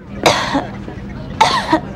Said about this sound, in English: How long have you had that cough?